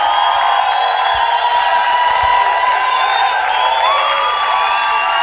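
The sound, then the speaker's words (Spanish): Applause and cheering from a church audience during worship, a dense, steady wash of clapping and crowd noise that holds at a constant level throughout, with a faint sustained tone running underneath. “ese fuerte aplauso al señor. ¡Con fuerza!”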